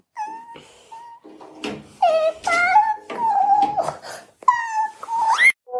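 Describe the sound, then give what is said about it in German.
A small child cries and wails after a cartoon is switched off. Several drawn-out, high, wavering cries come in uneven bursts with short breaks, loud and strained, and the last one rises sharply in pitch. “Das, was du gerade gehört hast, war mein kleiner Sohn. Ich habe den Zeichentrick ausgeschaltet und der hat geweint.”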